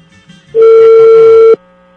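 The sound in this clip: Telephone ringback tone on an outgoing call, heard on the second attempt. It is a single steady, loud burst lasting about a second, then silence.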